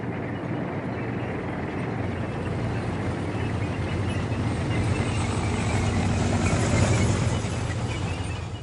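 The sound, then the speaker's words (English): A vehicle's engine rumbles on Tatooine in a Star Wars-themed Shakespearean parody, a dense, steady, loud roar that holds without a break for the whole stretch. “At last, this vehicle of death has stopped!”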